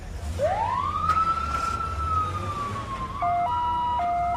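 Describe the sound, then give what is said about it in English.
An ambulance siren sweeps upward in a single rising wail, holds a long high tone, then switches to a loud alternating two-tone pattern. A low rumble runs underneath, and no voices are present. “Marie and Tom watch as the ambulance drives away”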